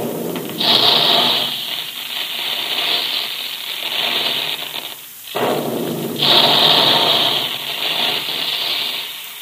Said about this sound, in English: That's the way the big guns in the Quaker plant sound when they're making puffed wheat and puffed rice.